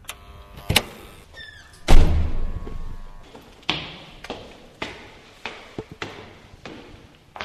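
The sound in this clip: A door being opened for a visitor at a home: a few light clicks and a heavier thud, then a steady run of sharp, evenly spaced knocks or clacks, with no voices.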